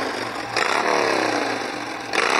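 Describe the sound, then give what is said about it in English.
A motorcycle engine being started and running, a loud buzzing roar that surges at about half a second and again near the end, with no talk. “Let me get my motorcycle started.”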